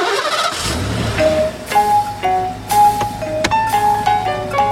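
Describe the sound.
A Renault 4L car engine catches and runs as the car gets under way, settling into a steady, mid-pitched rumble whose tone shifts a few times as it revs.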